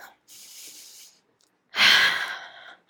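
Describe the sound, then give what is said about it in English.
Deep breathing during an interval exercise workout: a softer, steady inhale, a pause, then a much louder, rushing exhale that tapers off. “Pull back. Come back into a 6, a 7, and just feel your breath. Breathe.”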